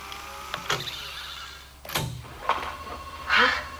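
A tape recorder rewound and set to play back again, with a few mechanical clicks and clunks over a thin motor whir, ending in a brief louder burst.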